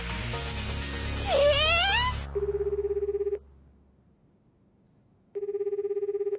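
A telephone rings in two electronic bursts separated by a pause of about two seconds before a voicemail service answers the call.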